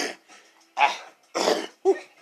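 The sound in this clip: A man coughs and clears phlegm from his throat: a few soft rasps, then three harsher, louder coughing bursts spaced about half a second apart, with no words spoken.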